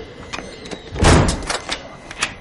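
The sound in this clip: A heavy door being closed in an ancient chamber where smoke rises from an altar: one deep, rumbling thud with a grinding scrape, set among a few lighter knocks, with no talk.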